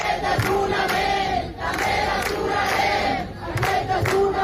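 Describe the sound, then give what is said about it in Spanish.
Crowd noise at a city protest encampment in Barcelona: a loud, dense mass of voices with shouting that is sustained throughout, with a couple of brief dips in volume. “aproximadamente en torno a 15 ciudades de España mantienen sus acampadas, se mantienen allí y vamos a recoger los sonidos. Por ejemplo, así sonaba este jueves Barcelona.”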